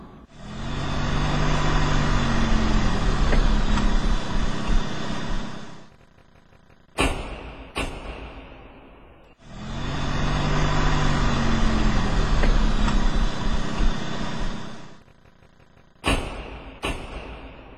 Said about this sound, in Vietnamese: thình lình bà nghe có tiếng xe hơi ngừng ngoài cửa ngõ.